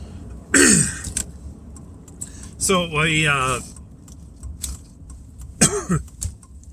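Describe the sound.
A person with a dry throat clears it while driving, three rough bursts spaced a couple of seconds apart, the middle one longer and voiced, over a low steady hum.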